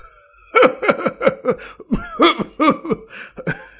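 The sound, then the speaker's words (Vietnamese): An old man coughing violently: a rapid run of many harsh, hoarse, voiced coughs in two close bursts, loud and strained, with no speech. “Chẳng qua mới cười được vài tiếng thì lại ho khan kịch liệt.”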